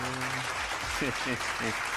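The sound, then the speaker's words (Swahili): Applause from a group at a Swahili quiz show, a faint, steady patter of clapping with a man talking over it. “Makofi kwangu tafadhali.”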